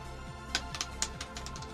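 A single die rolled during a tabletop game, heard as a few sharp, faint clicks and clatters spread over under two seconds against a low steady background.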